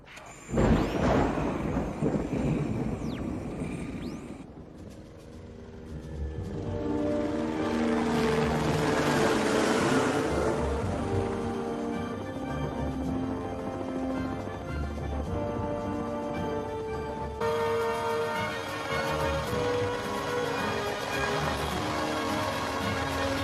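A thunderstorm rumbles around a propeller airplane off the Alaskan coast, with a sharp crack early on, then a swelling roar of thunder and rain over a steady, tonal engine drone.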